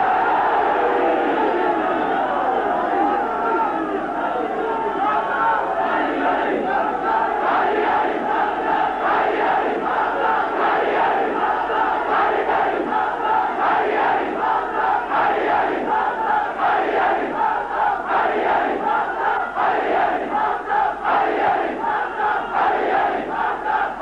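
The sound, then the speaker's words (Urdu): A large crowd at a Pakistani religious gathering chants the slogan "Ali Ali" in unison, a loud sustained roar of many voices with a repeating rhythmic pulse that grows steadier as it continues. “ہر جگہ پر علی علی کا نعرہ لگاتے ہیں”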